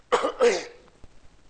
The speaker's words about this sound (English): Sorry, I have got some cough and cold.